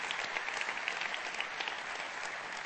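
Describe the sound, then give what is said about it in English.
Church audience applauding, a dense, steady wash of many hands clapping that continues evenly throughout. “Come on, can we put our hands together and thank God for all the campuses that are joining us?”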